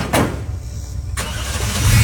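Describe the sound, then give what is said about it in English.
An old truck's engine cranks and catches, settling into a low, steady rumble that swells louder toward the end. “Now, they get into a truck, and they start the truck up.”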